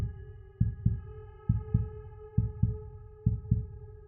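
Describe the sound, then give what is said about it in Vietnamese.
A heartbeat sound effect in a horror story: four steady lub-dub double thumps, deep and soft, under a sustained droning tone. “Trái tim tôi bỗng dưng đập nhanh.”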